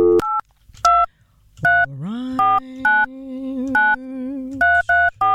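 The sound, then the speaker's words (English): Telephone dialing tones play as a series of short, loud keypad beeps in an uneven rhythm, with a steady dial tone humming beneath them partway through. “Okay, let's give it a dial. KK, let's give this thing a dial.”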